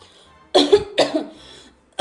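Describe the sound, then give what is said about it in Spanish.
Coughing from a person who feels a cold coming on: a few short, harsh, loud coughs in quick succession, with no talk. “Ay, ahora me dio por toser.”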